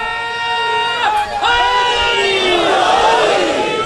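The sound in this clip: A crowd chants a religious slogan in unison at an Urdu-language religious gathering. Loud, sustained massed voices rise and fall in pitch together.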